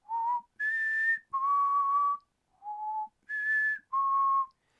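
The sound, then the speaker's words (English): A person whistles a short call of six clear, steady notes in two matching phrases, each going low, then high, then middle. The whistling is loud and alone, with no talk. “Wiggly the watermelon said that no, he was going to whistle and then his friend would come”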